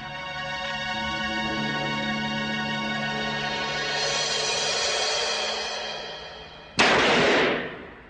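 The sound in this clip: A single sharp blast from a handgun fired at a target cracks out near the end, after a long stretch of steady, droning tones, and its loud burst quickly trails off.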